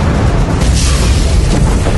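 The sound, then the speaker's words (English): Explosions of three rockets hitting home against a moving convoy: a loud, dense, continuous booming rumble that stays at a steady level throughout, with no separate blasts standing out. “No sooner had JB the time to absorb this impression than the three rockets hit home.”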